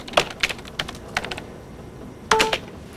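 Typing on a computer keyboard as a search for a disability fund is entered: clusters of quick key clicks, a brief lull, then a final louder flurry of keystrokes.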